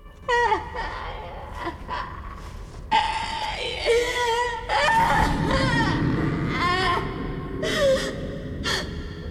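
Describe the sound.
A distraught woman wails in distress, with ragged, drawn-out cries whose pitch bends and wavers, broken by sharp gasps and whimpering breaths. The cries come in several uneven surges of fairly loud sound.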